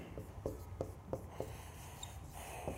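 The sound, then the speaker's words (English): Names being written down by hand: quiet, scratchy pen strokes come in a handful of short, evenly spaced bursts, very faint and with no talk over them. “And so some of these names, I'll just write them down for us here.”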